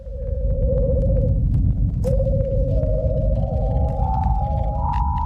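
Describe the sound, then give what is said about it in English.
A natural low-frequency radio emission from Venus's upper atmosphere, converted to audible sound, plays as eerie, whale-like whistling tones over a dense, steady low rumble. A held tone breaks off, returns, then steps upward in pitch through the second half. “This is the sound of Venus. NASA's Parker Solar Probe flew through Venus's upper atmosphere in July of 2020, and it discovered a natural low-frequency radio emission”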